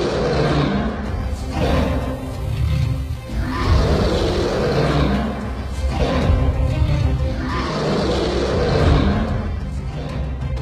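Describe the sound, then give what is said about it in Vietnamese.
Roaring of a tiger spirit thrashing as it burns in a fire-filled pit, heard as several deep, rough roars that swell and fade in slow succession, loud and without talk. “Con hổ tinh điên cuồng vùng vẫy, tiếng hổ gầm chấn động cả núi rừng.”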